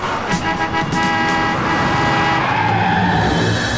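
Cars in traffic skid, their tires squealing in a sustained, high, whining tone over continuous loud engine and road noise.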